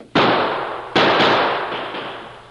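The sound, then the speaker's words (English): Gunshots fired from behind a big rock up on a rim: two loud, sharp cracks less than a second apart, each trailing into a long fading rumble. “Hey, look, that shooting's from behind that big rock right up there.”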